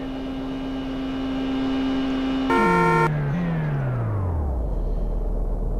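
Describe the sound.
A synthetic car engine drones in a racing video game, holding a steady hum, then a brief bright electronic burst cuts in as the engine note steps down and slides lower in pitch into a deep rumble.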